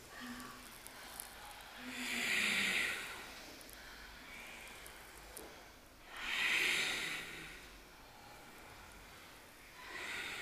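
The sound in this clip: Ujjayi breathing during a power yoga flow: two long, hissing breaths swell and fade at an even pace, with soft, steady background noise between them.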